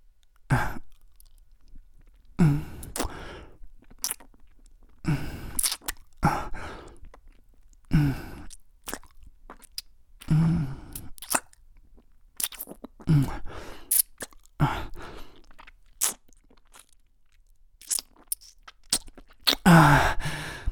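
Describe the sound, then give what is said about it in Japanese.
Wet kissing and slurping mouth sounds as two people share soft-serve ice cream mouth to mouth: many short, breathy bursts mixed with sighs and soft smacks, separated by brief quiet gaps, with no talking. “やば。キスでソフトクリーム食べさせ合うのめっちゃ美味しい。”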